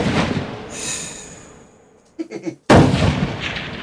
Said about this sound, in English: I aim. I fire.